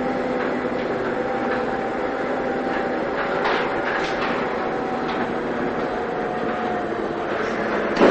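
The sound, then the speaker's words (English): A freight elevator rides up to an apartment with a steady mechanical rumble and a low, even hum that holds throughout, ending on a brief bump. “Soon after, they're riding a freight elevator up to Laura's apartment.”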